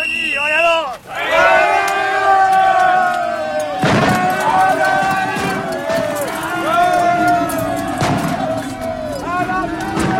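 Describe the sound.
Infantry assault with many soldiers charging and shouting together: a loud, continuous mass of yelling voices that surges and swells throughout.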